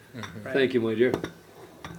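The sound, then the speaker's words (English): A cup of tea set down on a table gives a few light china clinks and chinks, with people briefly talking over it. “For those of you who don't know what that noise was, that's a cup of tea being placed in front of me.”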